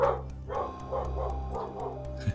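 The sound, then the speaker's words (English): Dogs barking in a quick series of short, sharp yaps and woofs over a low steady hum, with a brief louder yelp near the end. “that's okay. Those are my dogs. Somebody's coming in”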